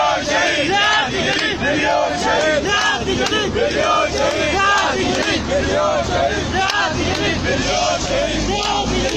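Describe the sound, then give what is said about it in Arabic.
Mourners at a late-night Wednesday funeral for a slain man chant slogans against the security apparatus, a dense, loud mass of shouting voices that continues without break. “شيع زوي الشهيد صالح عبد الوهاب جثمانه في وقت متأخر من ليلة الأربعاء وسط هتافات تندد بجهاز الأمن وهتف المشيعون قائلين”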